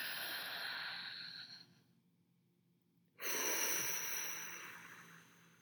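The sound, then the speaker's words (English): Deep paced breathing exercise, inhaling for four counts, holding for two and exhaling for four: a soft, breathy inhale, a quiet pause, then a longer airy exhale. “It's an inhale on a four count, a hold on a two count, and an exhale on a four count. So it goes like this.”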